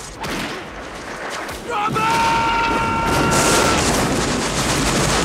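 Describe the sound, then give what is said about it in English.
Battle gunfire in a dramatized regiment charge up a steep incline: a dense roar of shots and booms that swells after the opening seconds, with a high sustained whistling tone in the middle. “As they attempt to run up the steep incline, the flag carrier is shot dead, and Robert's hit in the stomach.”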